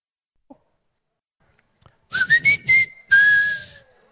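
A high whistle sounds during a church sermon: four quick pulsed notes followed by a long, steady sustained tone with a fainter lower tone beneath, after near silence.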